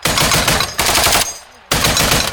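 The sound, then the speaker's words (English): Automatic gunfire from AK rifles and a U.S.-supplied Browning heavy machine gun, fired at Russian positions by Ukrainian paratroopers from a winter trench on the Eastern Front. Loud, dense bursts of rapid shots are broken by a short lull before a final burst. “They fire on Russian positions using AKs and a U.S.-supplied Browning heavy machine gun.”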